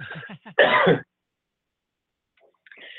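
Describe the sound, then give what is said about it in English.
Throat clearing followed by a single loud, harsh cough, with no talk; the short rasping bursts come first, then the cough, then silence until faint rustling sounds near the end. “So, excuse me. I need a cough button on my end.”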